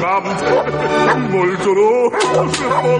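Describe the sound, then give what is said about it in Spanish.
Guard dogs bark angrily at a man leaving a house, in a dense, loud run of harsh barks mixed with yelps and whining whimpers that continue without pause. “Los perros de presa de los guardias ladran con rabia a Cornelio”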